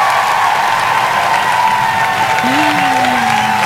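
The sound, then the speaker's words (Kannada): Applause rewards quiz listeners who answered correctly: a steady, even wash of clapping that holds at one level for the whole stretch, with a thin tone sliding faintly underneath. “ಸರಿಯಾದಂತ ಉತ್ತರ ಕೊಟ್ಟವರೆಲ್ಲರಿಗೂ ಕೂಡ ಪ್ರೀತಿಯ ಚಪ್ಪಾಳೆ ಬತ್ತಿದೆ.”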